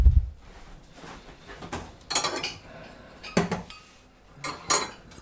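Cutlery scraping and clinking on a plate as a piece is cut. A few faint, scattered clinks and scrapes sit over quiet background noise.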